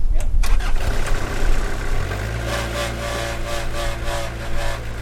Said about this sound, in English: starts up the small forklift he'll use to move the tree